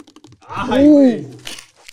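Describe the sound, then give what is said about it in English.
Adhesive tape pulled off the roll: a loud crackling tear with a squealing tone that rises and then falls over about a second, with short crinkly ticks before and after. “Tape. That's so loud.”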